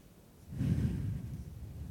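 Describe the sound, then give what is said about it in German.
A faint, deep inhaled breath taken during a calming breathing exercise, swelling in about halfway through and held as a soft, airy rush to the end. “dann atme ich tief ein”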